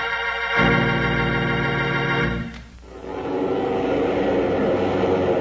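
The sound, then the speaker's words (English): Engines of a DC-7 propeller airliner ready for takeoff: a steady, loud droning hum with a strong tonal buzz that dips briefly midway, then turns into a broader, rushing roar. “Hear that? That's a United Airlines DC-7 mainliner ready for takeoff.”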